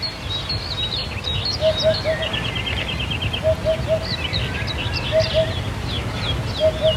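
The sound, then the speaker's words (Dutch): A hoopoe in the French Auvergne repeats a low, hollow 'oop-oop-oop' in evenly spaced short series, about four in all, while other birds chirp and twitter more brightly around it. “Een ander prachtig, repeterend geluid is dat van de hop.”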